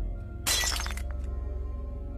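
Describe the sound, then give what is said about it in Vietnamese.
An oil lamp falls to the floor and shatters: one sudden bright crash of breaking glass with brief tinkling fragments trailing off, set over a steady low rumbling hum. “Ngọn đèn dầu rơi xuống đất, vỡ tan tành.”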